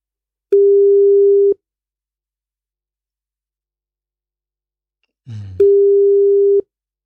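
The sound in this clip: A telephone ringing tone plays while a call is placed: two steady, mid-pitched one-second tones separated by a long silence, with a brief voice just before the second tone.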